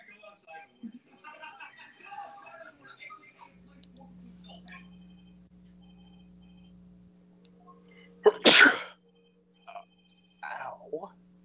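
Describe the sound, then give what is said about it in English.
A single sharp, forceful sneeze bursts out after faint talk and a low steady hum, with a couple of brief vocal sounds following it. “that sneeze hurt my chest”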